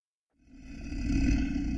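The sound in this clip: A roar stands in for a manticore, a mythical beast with a lion's body. The deep, rough growl swells up from silence and holds steady and loud to the end.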